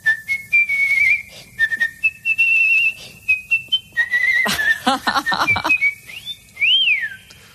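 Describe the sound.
A person whistles the melody of a summer hit pop song, a clear, bright tune in many short phrases with brief pauses between them. No one talks over it.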